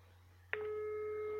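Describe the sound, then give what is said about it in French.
Telephone line tone heard over a speakerphone: a short click, then a steady, faint electronic tone that holds unbroken to the end over a low background hum. “C'est un son bizarre déjà le téléphone.”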